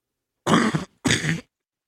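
Coughing and throat clearing from one person: two short, harsh bursts separated by a brief pause, fairly loud and alone against silence.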